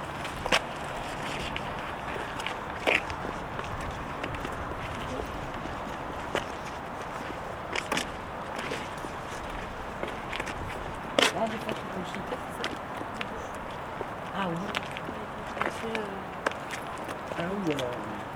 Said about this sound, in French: On marche un peu.